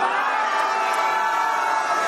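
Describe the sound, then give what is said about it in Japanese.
A crowd cheers right after a group toast at an awards gathering. The noisy, continuous mix of voices and clapping stays at a steady level throughout. “乾杯。”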